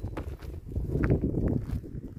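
Footsteps of someone walking across a rural property in Montenegro, a soft, irregular run of scuffing and crunching steps at moderate loudness with no clear count.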